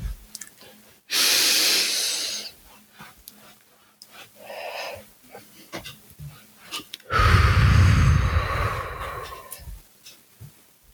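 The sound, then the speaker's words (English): Deep breathing during a box breathing exercise: a long, loud airy inhale, then a quieter stretch with faint small sounds, then a long, heavy, breathy exhale. No one speaks. “Inhale for 4 seconds, and then you hold for 4 seconds. Exhale for another 4, and you hold for another 4. Ready? Let's take a deep breath, and let's do this.”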